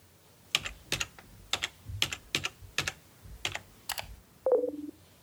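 Computer keyboard keys clatter as a name is typed, a run of sharp, evenly spaced clicks, about eight or nine strokes, followed by a short tonal electronic beep at the end.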